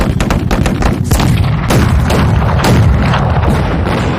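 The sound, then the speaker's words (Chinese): Artillery shells the village of Huangzhuang in a wartime battle, with many heavy booms and cracks running together into a loud, continuous rumble, without any voices. “八路军开始炮击黄庄。”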